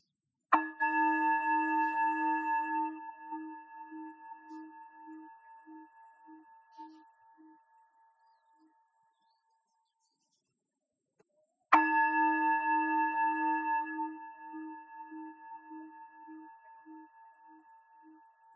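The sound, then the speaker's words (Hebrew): Two struck bell tones mark the pauses of a guided relaxation session. Each bell rings clearly and fades slowly over several seconds with a pulsing shimmer, the second struck about eleven seconds after the first, with silence between. “אחרי שנשמע שלושה צלילים של הפעמון, נתחיל להניע את בונות הרגליים לאט.”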